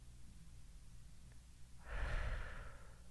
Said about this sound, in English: Ready? Breathe in. Ready, breathe in. Hold.